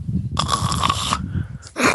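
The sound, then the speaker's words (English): A person vocally imitates blowing their nose, and it comes out as a loud, rasping, aggressive snore. One long snorting burst is followed by a second that starts just before the end. “That was supposed to be blowing your nose, but it sounded more like an aggressive snore”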